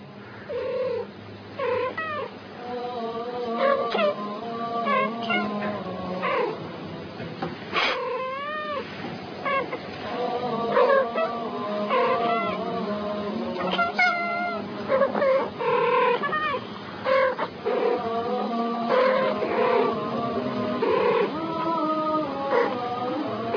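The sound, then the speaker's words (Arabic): Two cats meow and yowl back and forth in repeated drawn-out calls whose pitch wavers and bends, continuing almost without pause over a steady background. “ادي القطتين.”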